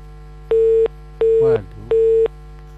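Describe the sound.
A phone busy tone plays after a call line disconnects. Three short, evenly spaced beeps hold the same steady mid pitch, and a brief voice fragment cuts in between the second and third.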